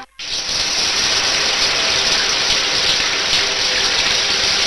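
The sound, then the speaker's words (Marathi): Water gushing out of an overflowing tank: a loud, steady rushing wash that begins after a brief hush and then continues unbroken and even, with no voices. “Watchman watchman अरे अर्धा तास झाला पाणी वाहतंय, टाकी बंद कर.”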